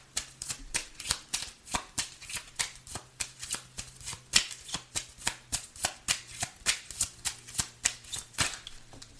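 Tarot cards are shuffled steadily for a love reading, with many sharp papery slaps falling in an even, regular rhythm. No one speaks during the shuffle.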